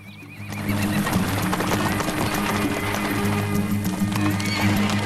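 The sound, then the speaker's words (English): Horses pulling a coach along the water's edge of a lake, with brisk, continuous clip-clop hoofbeats over a steady rumble of wheels, loud and unbroken throughout. “the horses pull the coach along the water's edge.”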